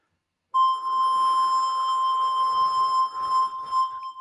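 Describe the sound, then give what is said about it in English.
An iPhone synth app produces a tone generated live, with its vibrato controlled by tilting the phone. A sustained, steady mid-pitched electronic tone starts abruptly after a short silence and holds for several seconds with a faint, slightly fluttering buzz beneath it. “so there, that's me actually holding the phone flat and then gradually tilting it into a vertical position. And that changes the amount of vibrato that's applied to the sound, which is actually generated live in the app.”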